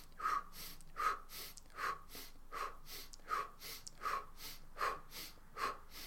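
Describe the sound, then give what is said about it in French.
Rapid rhythmic breathing during a breathing exercise: eight quick, forceful breaths at an even pace, each a short airy huff, faint and with no talk. “mais on sent qu'il y a un rythme respiratoire qui est bien impliquant, qui est bien rapide.”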